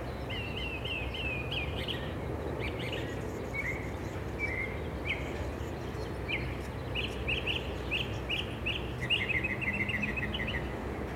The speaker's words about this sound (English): And there's the mockingbird calling out.